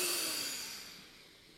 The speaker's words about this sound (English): Breathe in through that nostril.